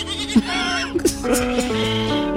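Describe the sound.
Goats bleating, loud, quavering and nasal cries that run almost without a break, with several calls overlapping at different pitches.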